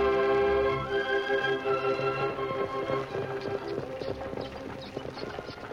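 Hoofbeats of a horse pulling a buckboard along a trail out of town, with a steady clip-clop rhythm that becomes distinct after a few seconds and continues to the end at a moderate level.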